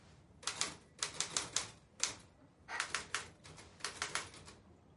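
Typewriter keys clack as someone types by day in a newspaper editorial office. Many sharp keystrokes come in quick, uneven bursts with short pauses between them, and the sound is fairly faint.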